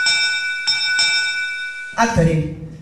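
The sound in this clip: A theatre bell rings the third call to actors, a bright, steady electric tone restruck a few times in quick succession. A voice then begins to speak.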